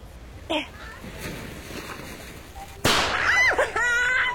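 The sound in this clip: A firework is set off on ice on New Year's Eve: a sudden sharp bang, then high squealing, whistling tones that wobble up and down. Before it, there is a small pop and people talking quietly.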